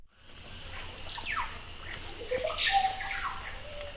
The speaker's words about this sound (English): I've seen this place. I've heard it, too. The vast and mysterious forest, the old earth. The Amazon, life untamed. Birds, enormous insects, plants grown past anything I've seen before.